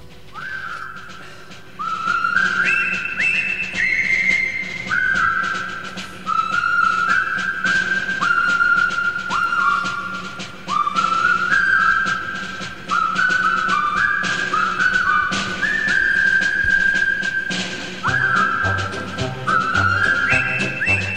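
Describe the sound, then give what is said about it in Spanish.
Whistling carries a famous march tune from a Second World War film, a brisk, bright melody of many short notes in repeating phrases, loud and steady throughout, with no talking. “igual estos silbidos os suenan de algo, son bastante míticos en la historia del cine, y es que os voy a hablar del Puente sobre el río Kwai”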